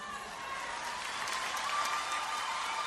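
An audience gives a round of applause, a dense and fairly faint wash of clapping that holds steady throughout.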